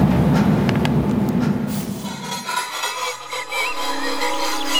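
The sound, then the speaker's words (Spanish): A train travelling on rails, with a low rolling rumble and a few sharp clacks for about two seconds before the noise drops away to a quieter remainder. “seguimos entonces viajando en tren hacia Praga con Ivana Mer”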